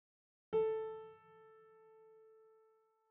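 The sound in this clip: The sixth tone in a numbered test series starts as a single mid-pitched note with a sudden onset and faint overtones. It dips in level after about a second, sustains evenly, then fades out.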